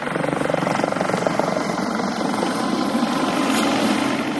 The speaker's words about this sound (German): Heute bringen Hubschrauber zweimal die Woche Vorräte, Post und Medikamente für die rund ein Dutzend Leute, die auf Hirta arbeiten und leben.